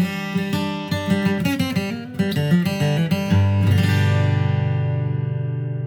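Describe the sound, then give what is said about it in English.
A bluegrass guitar lick picked with a flatpick: a quick run of bright single notes in uneven rhythm, then a strummed chord left ringing and slowly fading at the end. “Now, I'm going to play you two bluegrass licks and then I'm going to talk you through how to play them yourself. The first one sounds like this.”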